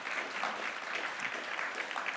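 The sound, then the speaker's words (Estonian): Audience applause at a gathering, a dense, even patter of many hands clapping at a steady level throughout, with no voices over it. “Anname talle üks jumala õnnistugu aplaus.”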